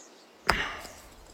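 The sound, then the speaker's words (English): A single sharp strike of a putter on a golf ball on the green, a crisp knock that fades into a short tail. “Now, unless I can sink this 20-footer, the match is yours. Flag out, please, Hawker. I'm going to sink it.”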